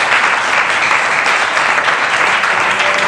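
A church audience applauds during a worship service, a loud, continuous wash of clapping that stays even from start to finish without a break.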